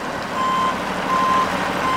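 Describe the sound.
Backup beeps sound from a truck hauling river water and fish at Priest Rapids Dam on the Columbia River. A few steady, high, evenly spaced beeps ring out over a continuous broad engine and road rumble.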